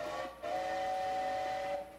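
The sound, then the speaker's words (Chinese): A train whistle sounds as a train is about to depart: a short blast, a brief gap, then a long steady multi-toned blast, fairly faint overall. “火车又要开了啦”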